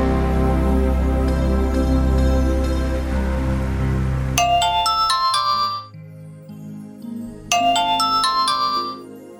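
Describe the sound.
A mobile phone rings with a bright, chiming electronic melody, played in two short phrases of high ringing notes after a sustained tonal opening.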